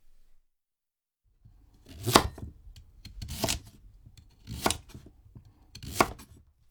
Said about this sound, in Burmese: အဲ့ဒီကစုံကိုတဝက်လှီးလိုက်ပါ။လှီးရတဲ့တဝက်ကိုနောက်ထပ်တဝက်ထပ်လှီးပါ။ဒါဆိုလို့ရှိရင်အလုံး၄စိတ်ရသွားပါမယ်။အဲ့ဒီ၄စိတ်ထဲကတစ်ခုစီကို3စင်တီမီတာအရွယ်သတိကံပုံဖြစ်အောင်လှီးပါ။